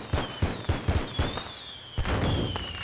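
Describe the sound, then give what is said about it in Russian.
Cartridges in a box explode on sand in a series of sharp, irregular bangs and cracks, many bursts in quick succession with a short gap before a final cluster. “Патроны в коробке взрываются.”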